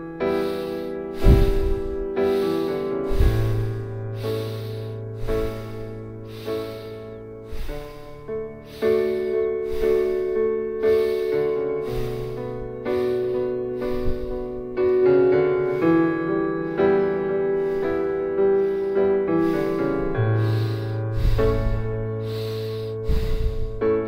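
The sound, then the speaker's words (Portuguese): Rapid breathing in and out through the nostrils during a guided breathing meditation: many quick, even, rhythmic sniffing breaths, steady throughout, set against sustained soft background music. “Nós vamos respirar 72 vezes, inspirando e expirando pelas narinas, podendo começar agora.”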